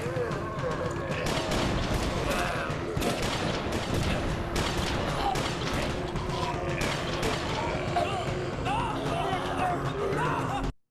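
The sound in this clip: Movie gunfire: a dense, sustained barrage of rapid shots and bursts continues loudly for about ten seconds, then cuts off abruptly.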